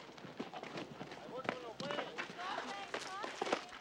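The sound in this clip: Footsteps of a person running out of a stucco house, quick irregular thuds and scuffs under a voice speaking almost throughout.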